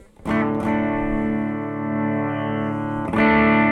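Electric guitar through a clean boost pedal into a Joyo amp sim with the preamp bypassed: a few strummed chords ring out, with a long, even, full sustain between the strikes.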